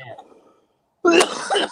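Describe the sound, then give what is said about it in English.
A deliberate cough from a person: a loud, rough burst after a short silence, preceded by faint talk. “I can cough.”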